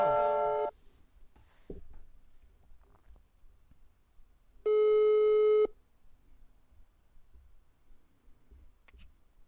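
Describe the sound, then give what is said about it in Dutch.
Telephone ringback tone on an outgoing call to an expert: two steady electronic tone bursts, a short one at the start and a second lasting about a second a few seconds later, with near-silence between. “Maar wij gaan bellen met een expert.”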